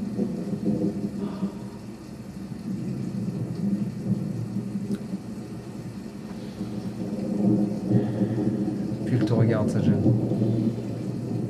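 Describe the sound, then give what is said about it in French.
Rain and thunder ambience, a continuous low rumble with steady hissing rain throughout, swelling briefly louder near the end, with voices faintly underneath. “alors que la pluie, pardon, vous touche le visage.”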